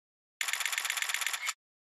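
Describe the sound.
A camera shutter fires in a rapid burst of many crisp, evenly spaced clicks lasting about a second, taking photos at an anime pilgrimage site before going into a shop.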